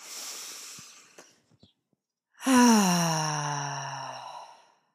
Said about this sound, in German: Wir nehmen mal noch einen Atemzug.